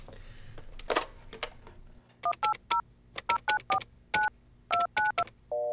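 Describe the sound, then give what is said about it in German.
Telephone keypad dialing tones: a rapid series of many short touch-tone beeps in uneven groups. Some handling noise comes before them, and a final multi-tone chime closes the sequence. “Dann warte mal, ich nehme mal kurz das Telefon,”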